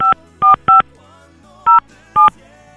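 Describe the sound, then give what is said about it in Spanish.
Touch-tone telephone dialing as a number is keyed in: five short, loud, clean beeps, three in quick succession, a pause, then two more. “Ahí estamos marcando.”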